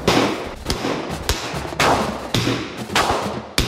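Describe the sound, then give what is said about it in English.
Handgun shots during a basic firearms course: several loud, sharp reports spaced roughly half a second apart, each trailing into a sustained wash of noise. “Firing an actual for real life handgun. Turns out, I'm a f***ing natural.”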